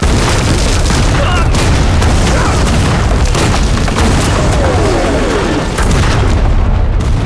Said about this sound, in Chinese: 太好了，咱们的炮弹发威了， 炸死你们这王八蛋！